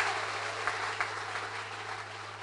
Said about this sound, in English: Can you put your hands together for yourself? Is that the way you can celebrate? I think you can do better.